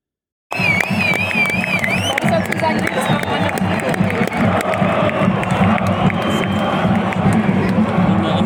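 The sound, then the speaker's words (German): Football crowd in the Waldstadion cheering for a fourth-division club. A loud, continuous roar of voices and shouts starts abruptly after a brief silence and stays dense and energetic throughout. “Und wie die Stimmung allgemein in dem Waldstadion war, in dem bekanntlichen Hexenkessel, das zeige ich euch jetzt. Wir hören kurz mal rein.”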